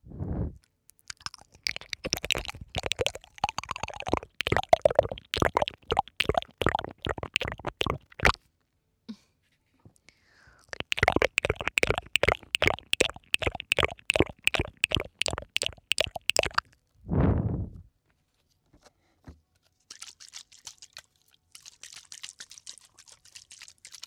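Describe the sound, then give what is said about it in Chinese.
ASMR water spraying onto the ear: many rapid, wet clicking spritzes in two long runs, then a brief low whoosh and soft, airy hissing near the end. “我想给你的耳朵上喷水了。”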